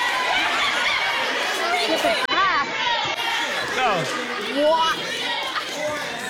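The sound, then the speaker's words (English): Studio audience yelling together, a dense, loud mass of overlapping shouting voices that stays steady throughout. “In case if you couldn't hear at home, basically universally everybody yelled, "Drink it!"”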